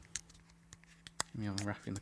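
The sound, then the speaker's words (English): Cornetto ice cream wrapper being unwrapped in a few quiet, sharp crinkling clicks, then a voice briefly speaks as the crackles continue. “So I'm going to do a world first for podcasts. I'm going to eat a cornetto, unwrap the cornetto.”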